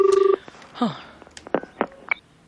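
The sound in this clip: Telephone dialling to call a plumber about a blocked toilet: a rapid pulsing tone opens, followed by a few separate short keypad beeps at different pitches, bright and clear against a quiet background.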